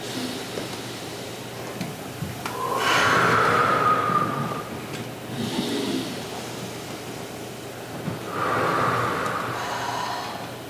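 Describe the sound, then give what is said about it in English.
People take slow, deep breaths in and out during a guided breathing exercise, heard as two long, airy swells of breath that rise and fade several seconds apart. “Take some deep breaths in. And let it out. Let's do that 2 more times.”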